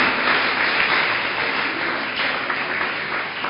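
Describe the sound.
Congregation clapping at a church service after the welcome of a newborn: steady, dense applause of many hands, fairly loud and even throughout, with no voices over it.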